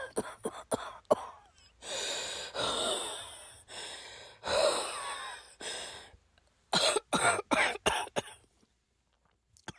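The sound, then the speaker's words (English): A person with asthma coughs and gasps for breath during an attack. Sharp coughs alternate with long, strained, wheezy inhalations, ending in a quick cluster of harsh coughs and then quiet. “Oh, no, my asthma's flaring up.”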